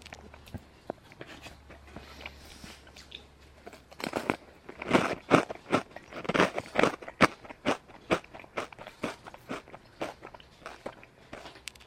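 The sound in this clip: Crunchy chewing of bacon with little vegetables: many crisp, sharp crunches in an uneven rhythm, quiet at first and then denser and louder through the middle, with no talk.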